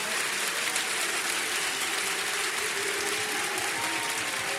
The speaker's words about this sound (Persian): یک کف حیدری بزن، کف حیدری گفتم، دست بیاد بالا